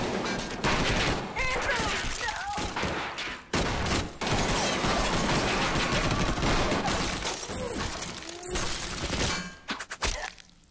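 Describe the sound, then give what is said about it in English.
Gunfire erupts in dense volleys, loud rapid shots piling into near-continuous firing with a few brief gaps, then thinning into scattered bursts near the end. “Wait. Dang, they have guns.”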